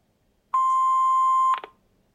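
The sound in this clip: An answering machine beep before a message: a single steady, mid-pitched electronic tone of about one second, fairly quiet, cut off cleanly and followed by a brief clatter of clicks.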